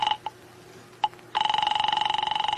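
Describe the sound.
A telephone rings: a few short tonal bleeps, then a sustained electronic ring with a rapid pulsing warble, fairly loud and with no voices.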